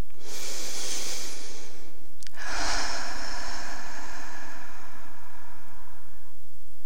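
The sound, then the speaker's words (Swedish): Deep breath during a guided relaxation exercise: a long, hissing inhale through the nose, then a brief pause and a longer, breathy exhale through the mouth that fades out near the end. “Ta nu ett djupt andetag igen in genom näsan och ut genom munnen.”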